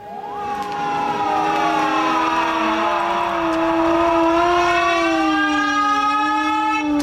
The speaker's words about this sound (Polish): Wybrzmiały syreny, a warszawiacy stanęli w milczeniu.